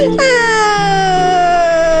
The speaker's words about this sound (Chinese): 你别哭了。